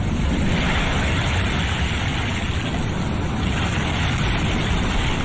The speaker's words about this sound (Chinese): 说把海螺放在耳边就能听到大海的声音，你听。